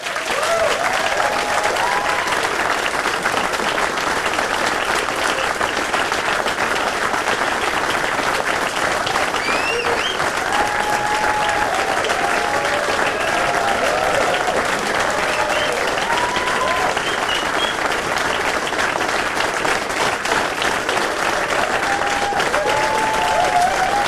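Audience applause welcoming a singer onto the stage, a long, dense wash of many hands clapping that holds a steady, loud level for around twenty-four seconds.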